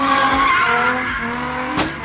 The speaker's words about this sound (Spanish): Al conductor se le pasó el acelerador y el Mustang se estrelló salvajemente y del impacto perdió una llanta.